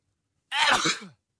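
A single sneeze from someone with pollen allergy, one sharp, breathy burst that bursts out suddenly and fades within about half a second, heard alone.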